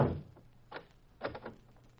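A door is shut and locked as a man is locked inside a room: a heavy thud at the start, then a few faint clicks and rattles of the lock in separate bursts.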